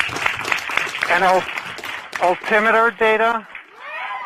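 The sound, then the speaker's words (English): NASA scientists cheer and applaud after the Ingenuity helicopter's first powered flight on another planet. Dense clapping opens the moment, then a voice talks clearly over the fading noise. “Now here's the sound of a bunch of scientists celebrating.”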